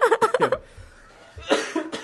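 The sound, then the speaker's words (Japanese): Spluttering coughs after choking come in a quick run of several sharp bursts, then a pause and a second, shorter burst of coughing. “むせたわ、もう。”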